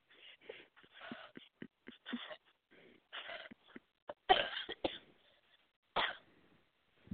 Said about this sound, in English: we have a whole anniversary episode of me coughing, so.